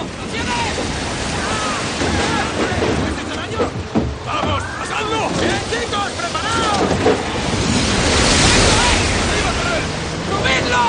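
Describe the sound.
Roaring wind and crashing waves of a violent storm at sea on a fishing boat's deck, a loud, continuous wash of noise that swells toward the end, with voices mixed in.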